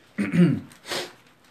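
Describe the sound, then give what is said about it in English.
Someone clears their throat in two short, rough bursts, the first stronger than the second, faint and alone without speech. “I apologize, everyone, I'm clearing my throat.”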